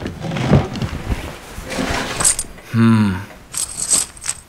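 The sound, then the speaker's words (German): Old coins from a wooden case clinking as they are handled: a few bright metallic chinks in two short clusters, mixed with talking and low handling sounds. “Ich glaube, diese Münzen aus dem Holzkoffer werden uns weiterhelfen.”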